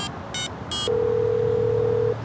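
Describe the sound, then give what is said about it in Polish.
Telephone tones from a call placed while sitting on a shaded bench near a small town: a few short touch-tone dialing beeps, then one long, steady, even-pitched call tone. “Usiadł i zadzwonił do Zawalnego.”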